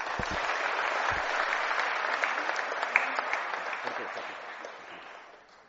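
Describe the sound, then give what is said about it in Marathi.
An audience applauds a first-place award announcement. Dense, even clapping starts with a few sharp early claps, holds steady, then fades out toward the end. “सर्वांनी टाळ्या वाजवा.”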